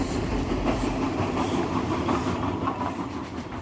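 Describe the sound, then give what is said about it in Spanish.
A special train travels on its rails with a steady, continuous rumble and faint rhythmic clatter, easing slightly at the end. “los lienzos vuelven a viajar, ahora rumbo a Ginebra en un tren especial.”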